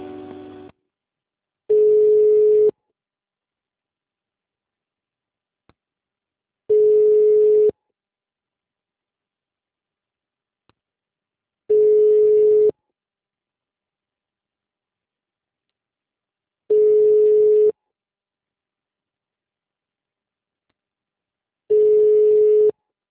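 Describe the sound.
Five long, steady telephone line tones of about a second each repeat at even intervals of roughly five seconds, with silence between them, while a call is transferred to another extension.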